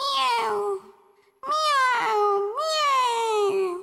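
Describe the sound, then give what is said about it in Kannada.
A voice imitates two kittens meowing inside a grandmother's house: a few high, drawn-out, wavering mews, with a shorter first call, then a pause before two longer calls that run into each other. “ಅಜ್ಜಿ ಮನೆಯೊಳಗೆ ಎರಡು ಬೆಕ್ಕಿನ ಮರಿ ಹಿಂಗೆ ಹೇಳುತ್ತಿತ್ತು.”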